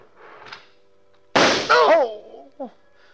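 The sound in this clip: A single sharp gunshot cracks out loudly in the middle, with brief voices around it, including a cry right after the shot.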